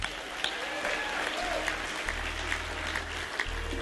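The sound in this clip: Audience applause welcoming a bass player on stage at a bluegrass show: steady, even clapping from the crowd that holds at a constant level throughout, with a low hum underneath.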